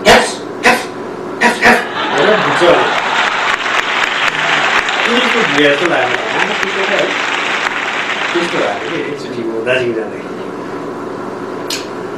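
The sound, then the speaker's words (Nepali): A voice imitates a stray street dog barking in the lanes of Darjeeling, with a few sharp, yapping bursts at the start. Applause follows and runs underneath, with further yips and chatter. “Darjeeling गएर यसो हिँड्दा त गल्लीको भुस्या कुकुरले कसरी भुक्छ थाहा छ मलाई”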